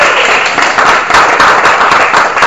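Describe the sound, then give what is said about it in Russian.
A small group claps along together in a session, producing loud, brisk applause. Many sharp hand claps overlap in a lively, steady burst. “Ну, давайте, как мы аплодируем,”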